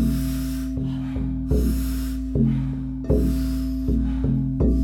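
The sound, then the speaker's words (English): Deep breaths in and soft exhales during a guided breathing exercise: several airy, rushing breath sounds repeat at a steady pace over a low, sustained musical drone. “Big breath in, soft exhale.”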